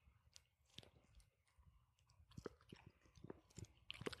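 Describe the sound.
Gummy candy being chewed during a taste test gives soft, irregular wet clicks and squishy bites, quiet and close, with denser smacking toward the end and no talk.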